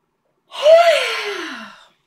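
A single long, breathy, voiced yawn from a person lasting about a second and a half. Its tone starts high and slides steadily downward as it fades, fairly loud and with no other sound.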